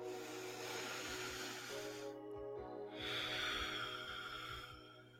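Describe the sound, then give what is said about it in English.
A person takes a deep breath, heard as a long, breathy hiss as air is drawn in, a brief pause, then a second long hissing exhale, all over a low, steady hum. “So, as always, let's take a deep breath.”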